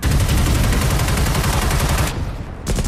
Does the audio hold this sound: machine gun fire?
yes